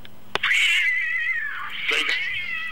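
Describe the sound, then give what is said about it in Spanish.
A Persian cat gives a long, drawn-out wailing meow, loud and sustained with a wavering pitch, just after a sharp click. “¿De quién es ese gato?”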